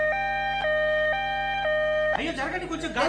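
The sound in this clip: An ambulance siren sounds a steady two-tone wail, switching between high and low pitch about twice a second for a couple of seconds. Then it gives way to people talking.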